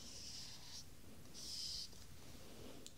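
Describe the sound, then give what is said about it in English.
A pen writing the Greek letter phi by hand, soft, quiet scratching strokes, two main ones, with faint hiss between them. “Now fi, you can write it in two different ways. You can either write it like that,”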